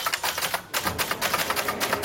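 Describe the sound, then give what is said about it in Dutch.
Rapid clacking of keys on orange typewriters set up in a library, many sharp strikes in a quick, uneven rhythm with one brief pause early on. “Hij zette in de bibliotheek van Zwolle namelijk een hele rits oranje typemachines neer waar mensen lekker op konden rammen.”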